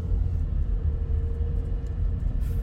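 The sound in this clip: A car engine accelerating at half throttle, heard as a steady, low rumbling drone with a faint whine that holds level throughout.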